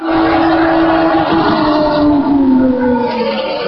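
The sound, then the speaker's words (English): Loud, steady engine drone of a McLaren Honda racing car passing on a hill climb, holding one strong sustained tone that shifts slightly in pitch. No voices. “Bruno Senna in a McLaren Honda.”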